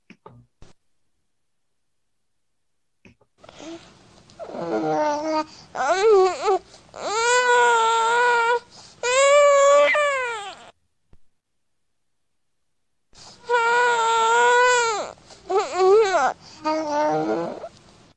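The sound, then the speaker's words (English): A 4-month-old baby boy coos and wails in several drawn-out, high-pitched bursts with wavering pitch. A long silent gap falls partway through, and two more bursts follow it. “here's a little 4-month-old baby, and he's going to say hello.”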